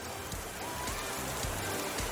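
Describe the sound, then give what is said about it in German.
Rain switched on as a sound effect: a faint, steady hiss of falling rain with scattered drop ticks throughout. “brauchen wir erstmal Regen. Also Regen ein.”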